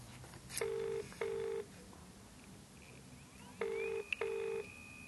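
An outgoing telephone call rings on the line: two quiet double-ring bursts of steady electronic tone separated by a pause, with a faint high beep between them.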